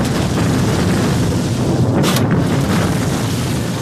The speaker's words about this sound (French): Ici, non loin de la capitale allemande, on n'utilise pas moins de 2 tonnes de dynamite pour niveler le terrain, déterminant ainsi de formidables explosions.